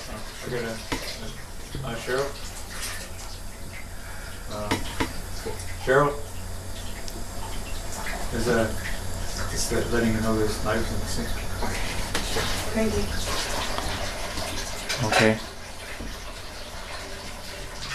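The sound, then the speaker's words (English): Water runs steadily into a sink as knives are washed, a continuous splashing hiss beneath people talking throughout. “is that letting you know there's knives in the sink?”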